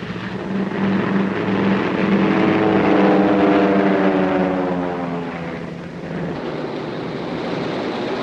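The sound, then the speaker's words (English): Propeller engines of Flying Tigers fighter planes taking off at night: a droning roar that swells and climbs in pitch, then eases to a lower, steadier rumble toward the end. “They watch the planes take off into the darkness.”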